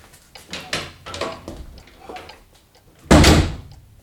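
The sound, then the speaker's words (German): A door opens with a loud, sharp, full-bodied burst near the end, after a stretch of quieter, intermittent noises. “Aber schon wenig später ging die Tür wieder auf”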